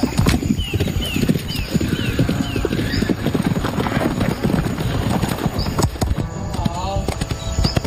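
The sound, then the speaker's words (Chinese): Horse hooves clip-clop steadily during show-jumping training with a rider, a busy rhythmic stream of hoofbeats with a horse whinnying near the end and people talking underneath. “插杆需要骑手熟练掌握起跳时机，才能与马匹共同跨越，这也是他们需要重点攻克的项目。”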